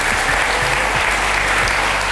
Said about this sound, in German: Danke fürs Kommen. Applaus